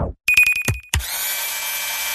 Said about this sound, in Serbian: Kada je vreme za košenje, bira se Eagle. Villager Eagle motorne kosilice uz čak 5 godina garancije.